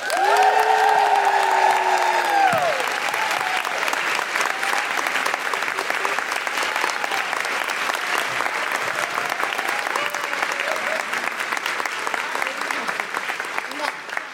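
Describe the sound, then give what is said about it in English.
Clapping and cheering fill the room at a live comedy show as guests are welcomed. A long held whoop opens the steady, even applause, which holds for the whole clip. “Please put your hands together and make wonderful Guilty Feminist woohooing noises for Amy Lamé and Alicia Wittmeyer.”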